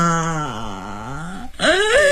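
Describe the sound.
An older woman wails and cries in a long, drawn-out moan that slowly sinks in pitch. After a brief catch of breath, a sharp, loud cry sweeps upward.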